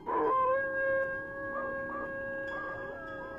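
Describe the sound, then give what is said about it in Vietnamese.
Dogs howling at night from nearby houses, long wavering, drawn-out howls that rise and dip in pitch and hold at a moderate level, with no voices. “Tiếng chó tru trong đêm nghe nó rát ê cả tai.”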